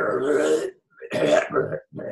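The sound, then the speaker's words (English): Heavy, phlegmy throat clearing from a man with a congested throat, rough guttural bursts repeating a few times with short gaps between them, loud and raspy. “please clear your fucking throat. Good God. His throat has just got to be a phlegm depository.”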